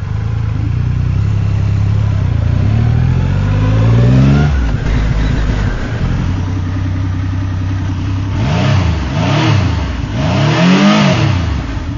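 Motorcycle engine revving with a sporty rather than throaty tone: a steady idle climbs in pitch, drops back, then a few quick rising-and-falling rev blips follow near the end.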